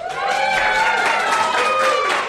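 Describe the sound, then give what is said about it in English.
A studio audience applauding, a dense, steady wash of clapping with cheering voices mixed in, holding at an even loudness for about two seconds. “we're live in front of a studio audience.”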